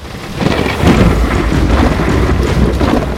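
Thunder rumbles over a town square during a stormy night, mixed with steady heavy rain and a dense low roar that holds loud and unbroken throughout.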